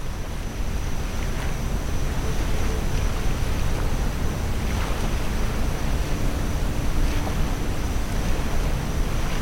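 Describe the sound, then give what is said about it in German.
Gentle waves wash onto a beach beside a lagoon, a continuous, even rushing hiss that stays steady at a moderate level with no distinct breaks. “Die Wellen rauschen gemächlich an den Strand.”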